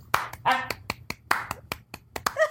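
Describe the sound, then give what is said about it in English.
A sparse, polite golf clap: a handful of light, separate hand claps and snap-like taps in an irregular rhythm, fairly quiet, with no voices over them. “I feel like a golf clap is necessary.”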